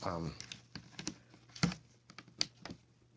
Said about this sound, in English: All right, I've got a second guitar pick in here now, and I'm trying to work my way around this one corner